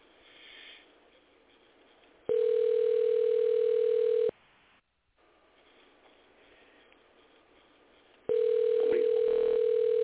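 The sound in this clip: A steady telephone dial tone is heard while a number is dialed. It sounds in two long stretches, broken by a quieter hiss and a brief silence.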